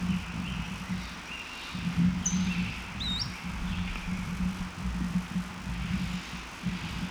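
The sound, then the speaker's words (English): A bird in the background gives position notes: a couple of brief, high chirps, faint over a steady low rumble. “Another bird in the background giving position notes.”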